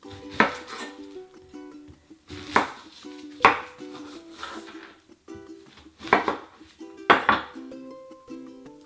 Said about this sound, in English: So you're just gonna use one onion and we're just gonna quarter it.